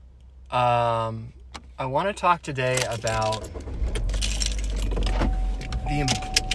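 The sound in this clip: Inside a car while driving, a person talks at first, then a steady low engine and road rumble with faint higher noise fills the cabin.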